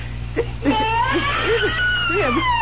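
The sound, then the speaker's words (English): A baby crying in a hand-carved crib in a dark corner, a loud, high, wavering wail with tremulous rising and falling cries over a constant low hum. “tell me you hear what I hear. A baby crying right here in this crib.”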